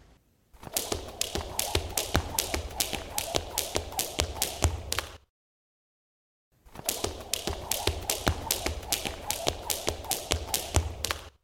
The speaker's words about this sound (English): The sound you just heard was a recording of someone using a skipping rope.